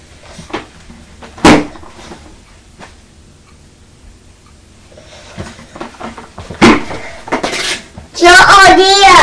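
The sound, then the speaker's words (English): A chair falling over indoors near a mother and her young son, heard as a sharp clattering thud, followed later by further knocks and brief high vocal sounds. “Oh dear, has the chair fallen over now? You best pick it up, hadn't you?”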